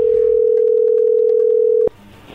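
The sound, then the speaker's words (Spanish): An incoming telephone call sounds as a steady, loud tone held for almost two seconds, then cut off abruptly. A faint line hiss follows. “ahí entró la llamada”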